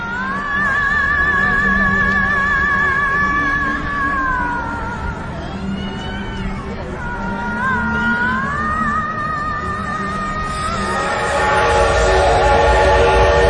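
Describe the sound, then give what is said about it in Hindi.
A train horn sounds at a station where an eight-carriage train stands amid a crowd of thousands. Long, wavering horn tones ride over a steady rail rumble, then give way to louder, rushing noise near the end. “Pipla station पर 8 डिब्बों की गाड़ी थी और लोग थे 10,000।”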